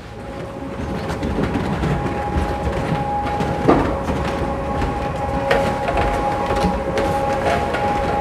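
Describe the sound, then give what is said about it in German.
A very old but still working malt mill grinds malt in a brewery, giving a continuous rattling mechanical clatter over a steady tonal hum, with a sharper knock near the middle. “Man muss das Ganze erst mahlen, schroten und da haben wir eine sehr alte, aber gut funktionierende Mühle da. Die darf ich euch gerne zeigen.”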